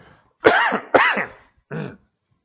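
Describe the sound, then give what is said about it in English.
Someone clears a scratchy throat with three rough, harsh bursts. The first two are strong and close together, and the third is shorter and softer after a pause. “Get that scratch cleared out of my throat there.”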